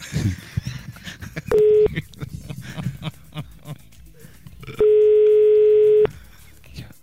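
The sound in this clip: A telephone dial tone sounds as a radio studio calls a listener: a short steady beep, then a longer held tone, both loud and even, with voices and background noise continuing around them.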